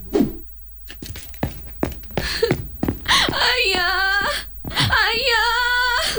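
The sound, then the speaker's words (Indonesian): A daughter sobs in distress, starting with choked gasps and sharp catching breaths. Two long, wavering wails follow, loud and high-pitched, each trailing off into sniffling. “Ada apa ini putriku? Kenapa kamu menangis?”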